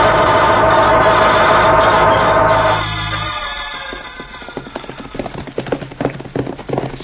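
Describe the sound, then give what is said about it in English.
Galloping horses make a fast, uneven clatter of many hoofbeats that builds as a steady earlier sound fades out. “We never ride so fast as this, Cisco. We must ride fast, Pancho.”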